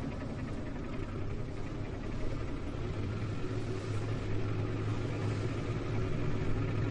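Engine of a fishing boat pulling out of port, a faint, continuous low drone with a steady deep hum and no voices over it.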